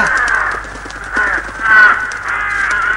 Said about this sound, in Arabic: ابتعدوا عن بيتي أيتها الغربان، هيا هيا هيا ابتعدوا.